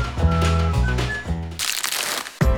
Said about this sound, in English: That's the sound of pure bliss. The unwrapping of a Lindt Lindor truffle.